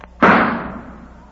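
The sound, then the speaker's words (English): A single gunshot fired at a target: one sudden loud crack with a short fading tail, standing alone. “stop shooting. Put down that gun.”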